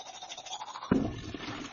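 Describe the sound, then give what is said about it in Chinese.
Toothbrush scrubbing during a morning routine of brushing teeth and washing face: a steady scratchy brushing that turns louder and fuller about halfway through, with no talk. “如常地刷牙洗面同埋尝试大解放”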